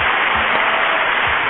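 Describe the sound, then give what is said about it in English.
Dense applause from 10,942 hands forms a steady, continuous wash of clapping, even in loudness throughout and with no voices. “10,942 hands showing appreciation.”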